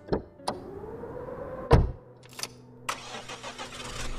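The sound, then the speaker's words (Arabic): A four-wheel-drive car's engine cranks and starts after a few clicks, a mechanical whir and a heavy thump, then keeps running with a steady mid-pitched rumble. “صوت الموتور وهو بيدور، وبعدين العربية اتحركت لقدام وحاودت عشان تدخل على الطريق.”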